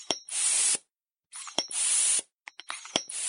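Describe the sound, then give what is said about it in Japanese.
An air pump pressed to inflate a balloon gives three strong bursts of rushing hiss separated by short silences, with sharp clicks and knocks from the pump between strokes. “膨らむの早い。 委員長、早くポンプ押しなさい。”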